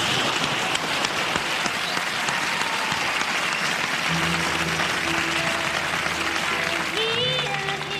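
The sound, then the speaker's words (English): A television studio audience applauds to welcome Kate Bush on her first American television appearance. The clapping is loud and dense throughout, and sustained steady tones join beneath it about halfway through. “Ladies and gentlemen, my guest tonight has come all the way from England. This is her first time on American television. She's very wonderful. Will you please welcome Kate Bush?”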